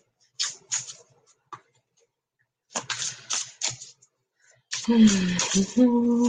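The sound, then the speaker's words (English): Tarot cards drawn from a deck make a few quick papery flicks and slides in short bursts, separated by pauses, before a voice begins speaking. “I'm being asked to draw two cards for you. One.”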